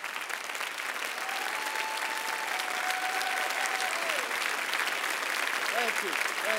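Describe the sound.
A church audience stands and applauds to welcome a guest speaker, a loud, steady, sustained round of clapping with a brief voice over it near the end.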